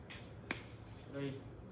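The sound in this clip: A single sharp finger snap rings out in a classroom as a teacher cues a countdown, a crisp isolated crack against a faint murmur of voices.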